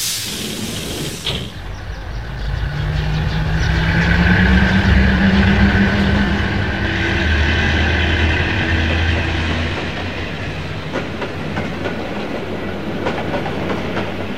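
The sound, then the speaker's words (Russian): A train rumbles and clatters as it leaves past a bend among dense trees. Its steady rolling roar and clickety-clack swell, then ease slightly and carry on without any voices. “Поезд скрывается за поворотом среди густых деревьев.”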